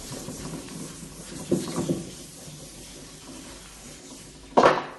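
Someone wipes chalk writing off a board, making a few faint, dry rubbing strokes in a short cluster, a quiet pause, then one louder final swipe.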